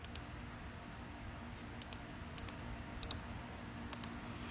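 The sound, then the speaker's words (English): Faint typing on a keyboard while notes are entered: a few light, scattered key clicks in short clusters over a soft, steady background hiss. “Let me type that in there in my notes. Give me one second.”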